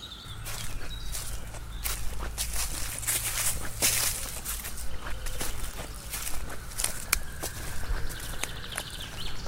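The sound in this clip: Footsteps stomping off into a forest: many quick, heavy steps crunch and patter in a continuous stream, with rustling underfoot throughout and no talk.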